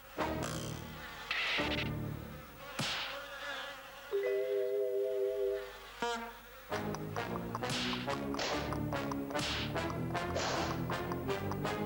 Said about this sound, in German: empfängt ihn ein bestialischer Gestank und das Geräusch von vielen, vielen Fliegen, die auf den Fladen sitzen, die überall hier liegen.